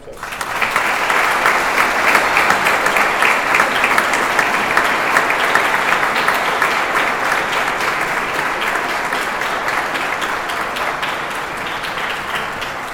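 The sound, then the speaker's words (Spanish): Wedding guests applaud the newlyweds at a church wedding mass with dense, sustained clapping from many hands. It stays loud and even for the whole stretch and eases only slightly toward the end. “Vamos a regalarles un aplauso.”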